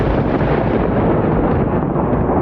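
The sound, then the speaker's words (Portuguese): Thunder rumbles as a loud, dense, unbroken roar that holds steady without pauses, with no talk over it. “Ouvia os trovões, sabendo que era o som dos espíritos que jogavam vastos jogos celestiais e batiam os pés.”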